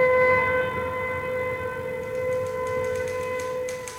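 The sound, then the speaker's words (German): An air raid siren sounds as a loud, sustained wail of several layered steady tones that holds an even pitch throughout. A few faint clicks appear near the end. “Ach, hört denn das nicht bald auf? Die Sirenengeheul macht einen ja ganz nervös.”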